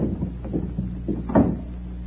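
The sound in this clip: A door leading out to the garden opens with low, muffled creaks and knocks, ending in a slightly heavier bump.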